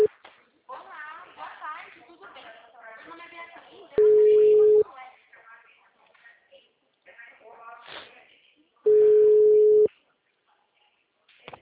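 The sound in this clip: Ringback tone of an outgoing telephone call: two long, steady, mid-pitched beeps about five seconds apart, with a person talking before and between them.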